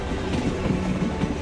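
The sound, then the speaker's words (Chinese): A train runs on railway tracks toward Hangzhou, giving a dense, heavy, muffled rumble with faint rhythmic wheel knocks that stays steady throughout. “列车呀呀，直奔杭州而来，发出沉闷又凝重的铁轨叩击声”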